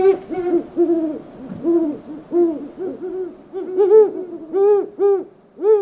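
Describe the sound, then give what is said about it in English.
Male and female great horned owls hooting in a steady rhythmic series of many soft, deep hoots. Higher-pitched hoots join in toward the end and overlap the lower calls. “Hoots of the male great horned owl are lower in pitch than those of the female. Now, listen for the moment the female flies in to join the male.”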